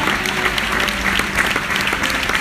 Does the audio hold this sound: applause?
yes